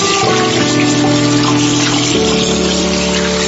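Water running from a tap as hands are washed, a steady rushing flow with a constant tonal hum beneath it.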